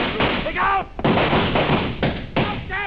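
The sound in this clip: Gunshots crack out as a room is stormed during a rescue of a captive: a few sharp, loud bursts hit amid shouting voices and thuds.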